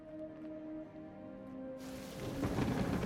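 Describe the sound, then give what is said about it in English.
Rain falls on a planet in a video game, a faint patter that swells into a fuller, rushing hiss partway through, layered over a low, sustained tone. “It rains on this planet.”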